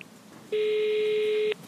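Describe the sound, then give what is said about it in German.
Telephone ringing tone as a call is placed: a single steady electronic tone about one second long, loud and unbroken, with no voices. “habe ich in Groß Paschleben noch einmal angerufen.”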